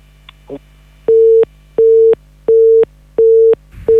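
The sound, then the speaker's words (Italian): A telephone busy tone sounds after a dropped call: evenly spaced, steady mid-pitched beeps, four full tones and the start of a fifth. A couple of faint clicks come before them. “purtroppo è caduta la linea”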